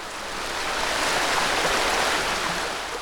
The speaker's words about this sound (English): you join us by the banks of the River Rye in North Yorkshire in Northern England. And that gushing, babbling and trickling, that endless flow you hear,